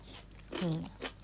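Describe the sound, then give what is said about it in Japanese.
Crunchy chewing of daikon radish eaten as a palate cleanser between heavier food, with a few crisp bites and a short voiced sound partway through. “うん、こうやって大根とか箸休めで食べないと結構しんどいかも。”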